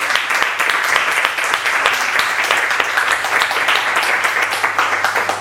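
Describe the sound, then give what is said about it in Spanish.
An audience applauds at a talk just before a debate begins. Dense, steady clapping from many hands carries at an even loudness from start to finish. “si os parece bien, aplaudimos primero”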